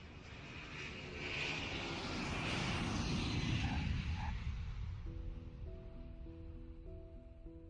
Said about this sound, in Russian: Наконец самолет приземлился.